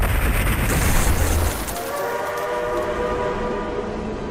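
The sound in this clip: A passenger train arrives at Pingxingguan station with a loud, steady rumble of rolling wagons. Partway through, sustained high tonal whines rise over the noise and continue to the end, with no voices.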